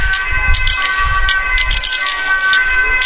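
An ambulance siren sounds from traffic on the road, steady high wailing tones held throughout over a continuous low vehicle rumble.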